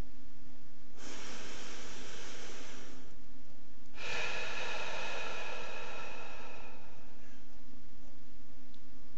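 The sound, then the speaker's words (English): Someone breathes deliberately hard enough to be heard during a guided breathing exercise. There are two long, noisy breaths, the second longer than the first, separated by a short quiet gap over a faint steady hum. “Now breathe a little harder so as to make a bit of a noise as you breathe in and out.”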